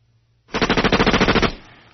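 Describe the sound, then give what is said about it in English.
Gunfire sound effect: a rapid machine-gun burst of many closely spaced, evenly timed shots. The loud burst lasts about a second, then fades into a short tail. “why don't you take me out with a hail of gunfire?”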